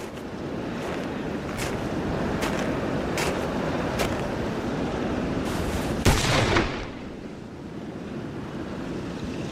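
A gunshot cracks out in a duel, with a few sharp clicks before it over a constant surf-like windy rush; after the loud report the background drops to a quieter wash.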